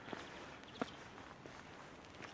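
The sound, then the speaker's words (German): Footsteps walking through an underpass: soft, uneven steps with a few sharper scuffs, faint over a steady background hiss. “Wir können dann mal durch die Unterführung gehen. Oh ja. Ein bisschen Effekt.”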